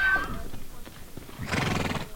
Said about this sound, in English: The wild horses rounded up today are faring better than that, but not by much.